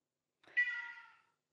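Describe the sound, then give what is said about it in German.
A cat meows once through a baby monitor, a single faint, drawn-out call that starts with a quick rise and then fades away over nearly a second, set against silence. “Das, was ihr jetzt gerade hört, ist das Babyfon. Und jetzt überlege ich gerade, ob es die Katze oder ein Kind ist. Das ist ja immer unsere Challenge so ein bisschen. Aber ich glaube, es war die Katze.”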